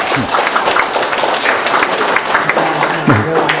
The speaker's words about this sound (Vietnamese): Cảm ơn ông. Ông là người đầu tiên biết là để mà tìm hiểu. Vâng. Một trong các thầy để cảm ơn người anh em này, hoan hô người anh em này.